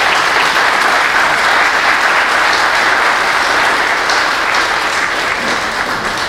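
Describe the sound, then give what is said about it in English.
A church audience applauds during a memorial service, a dense, loud and steady wash of clapping that holds at an even level for the whole stretch without a break. “You can applaud if you want.”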